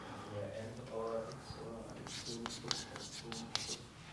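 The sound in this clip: Handwriting by pen or pencil, made of scratchy strokes and short scraping bursts that come thicker toward the end, with people talking underneath.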